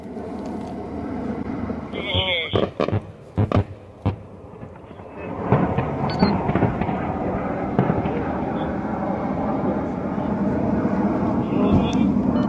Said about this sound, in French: Les images sont prises de nuit, on ne voit donc pas les appareils qui opèrent, mais on les entend distinctement, de même que les tirs de roquettes.